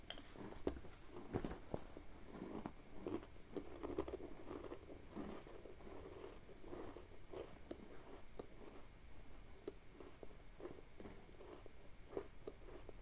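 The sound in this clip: Crisp biting and crunching on an imitation Oreo-style sandwich cookie. Many small, sharp clicks sit over a steady low hiss, with no voices.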